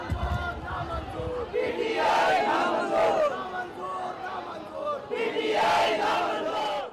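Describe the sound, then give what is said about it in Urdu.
Crowd chanting slogans against a political party at a public rally in Sindh, Pakistan. Many voices shout together in loud waves that rise, ease off and swell again. “جلسے میں پاکستان تحریک انصاف کے خلاف بھی نعرے لگائے گئے۔”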